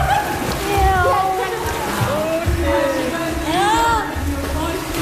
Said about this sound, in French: On peut entrer dans la piscine, ouais.